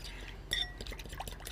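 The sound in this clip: A spoon stirs a mixture of oil and honey. One bright clink against the container stands out amid faint, brief liquid swirling.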